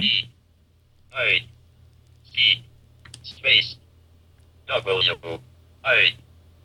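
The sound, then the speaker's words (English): Key presses on a battery-powered handheld gadget: several separate, crisp, bright taps spaced roughly a second apart, with two close together near the end, over a low steady hum. “I'm going to type in, I'll type in Giz Wiz.”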